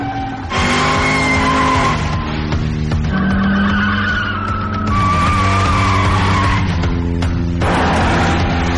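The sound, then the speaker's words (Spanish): A Lada car accelerating hard and spinning doughnuts: loud, continuous tire squeal with wavering, whining pitch over a steady engine roar, sustained throughout without a break. “pisa a fondo el acelerador. Todos los del barco miran el coche que hace trompos.”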